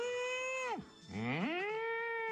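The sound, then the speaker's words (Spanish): A cow mooing sound effect: a fairly quiet, tonal low call that holds steady and then drops away, followed by a second moo that swells upward and sustains evenly to the end. “La vaca. Mira vos, qué bien, con el efecto de sonido a mí me encanta esto.”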